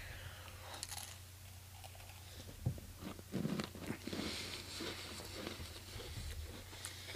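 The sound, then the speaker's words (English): A sugar cookie dipped in a firm topping is bitten and chewed, with a faint crunchy bite followed by quiet, crumbly chewing sounds. “So I've got one of my sugar cookies that doesn't have anything on it. And I'm just going to dip it in. It's a pretty firm dip too.”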